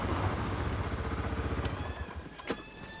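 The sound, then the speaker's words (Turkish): A tractor pulling up and stopping, its low, chugging engine throbbing in a steady pulse that weakens toward the end, with a brief clatter near the close. “Traktör yanlarına gelip durdu.”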